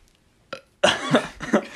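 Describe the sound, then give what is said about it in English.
A person burps once, a low rough gulp of air that lasts about a second, with a short faint sound just before it and no talking. “Sorry, I had to burp.”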